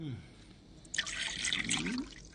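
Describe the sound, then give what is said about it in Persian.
Water poured into a glass starts about a second in, a bright splashing stream that runs for about a second, with a faint murmur of voice underneath. “اجازه بدید براتون آب بریزم.”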